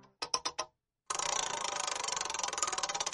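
Clicking of a prize wheel spun to pick a game category: a few sharp separate ticks, a short pause, then a fast, steady stream of loud ratcheting clicks that runs to the end.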